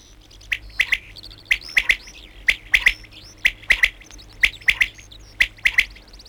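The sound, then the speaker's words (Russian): Songbirds sing bright, high chirps in quick groups of two or three, repeated about once a second over a faint low hum. “Кончается птичий концерт. Звучит последняя песенка.”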